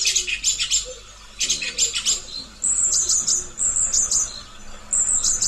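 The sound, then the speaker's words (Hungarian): A song thrush sings a few bright, high-pitched phrases of quick chirps and whistles, the last one longer and more continuous. No voices are heard. “Hallgassuk meg tehát az énekes rigó énekét.”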